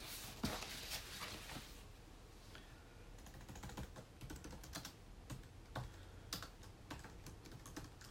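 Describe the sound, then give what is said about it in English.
Someone types on a computer keyboard, with many faint, quick keystrokes in an irregular patter and brief pauses between bursts. “I'm trying to type something out here.”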